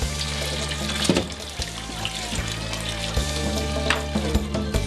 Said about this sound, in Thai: เริ่มต้นจัดการล้างทำความสะอาดผักทุกอย่างก่อน